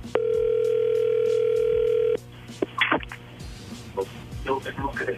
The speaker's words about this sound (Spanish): ahí se está marcando de nuevo